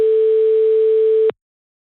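A telephone ringback tone on an outgoing call: a single steady, mid-pitched tone holds for over a second, then cuts off into silence.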